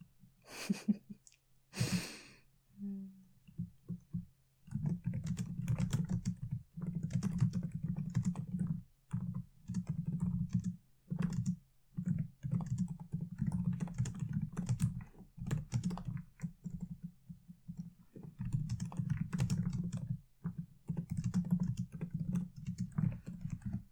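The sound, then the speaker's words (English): Rapid typing on a computer keyboard: many quick, crisp key clicks in uneven bursts with short pauses, continuing alone after a few brief sounds at the start. “Is it comfortable listening to me type?”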